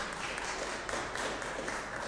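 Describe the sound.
Audience applause during a speech, a thick, continuous wash of many people clapping with a few sharper claps poking through the steady patter, at moderate loudness and without talk.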